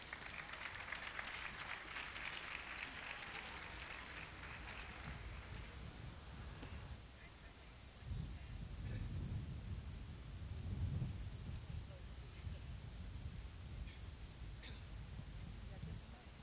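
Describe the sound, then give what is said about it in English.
An audience applauds to welcome a gospel group at a Palm Sunday event, producing a continuous roar of clapping that swells and fades slightly throughout, with a voice heard briefly over it. “Let's give a big and warm welcome.”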